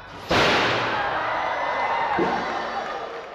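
A circus human cannonball act fires with a sudden heavy bang, and crowd cheering swells straight after and carries on. A second, duller thud lands about two seconds later beneath the ongoing noise of the audience.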